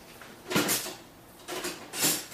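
Someone reaching into a kitchen drawer for a knife while cooking puris: three short clattering bursts of wood and metal bumping, separated by quieter gaps.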